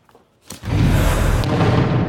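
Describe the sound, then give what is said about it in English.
Artillery fire booms during a battle still shaking the recently liberated city of Kupiansk in eastern Ukraine: one sharp, loud blast followed by a heavy, sustained low rumble, with no voices. “An artillery battle still shaking the liberated city of Kupiansk.”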